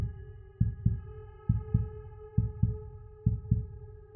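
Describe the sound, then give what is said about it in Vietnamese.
Heartbeat sound effect: steady pairs of deep lub-dub thumps, about four pairs evenly spaced, over a sustained low droning tone. “Trái tim tôi bỗng dưng đập nhanh.”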